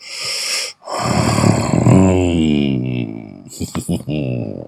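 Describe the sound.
A loud, breathy exhale in an intimate moment, followed by a long voiced moan that sinks in pitch, then a few short breathy catches.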